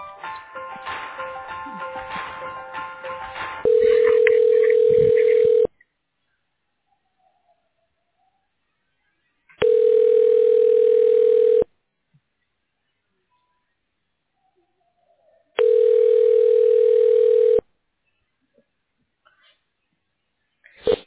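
Telephone line tones while a call is transferred: after a brief opening sound, three long, steady, mid-pitched ringing tones sound at even intervals, each about two seconds long and separated by silent gaps.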